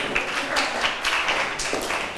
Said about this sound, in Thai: ขอบคุณกลุ่มที่3ปรบมือให้เพื่อนหน่อยค่ะ